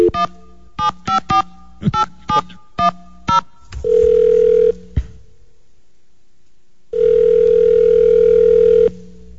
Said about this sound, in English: let me call her back.